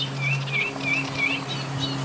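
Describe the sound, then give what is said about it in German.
Reed warblers singing among the reeds: a series of short, high chirping phrases repeating at a brisk, regular pace, fairly faint over a steady low hum. “Oder jetzt auch das Vogelkonzert von diesen Schilfrohrsängern oder von den Rohrsängern.”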